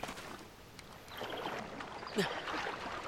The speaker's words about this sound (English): Okay, we have to swim a little through some water to get over to the stairs here.